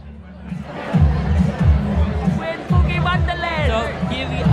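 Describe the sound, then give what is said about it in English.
Crowded club ambience: a pounding bass beat of dance music running under busy crowd chatter and overlapping voices, loud throughout. “Reluctantly, Deacon follows the others into the crowded club.”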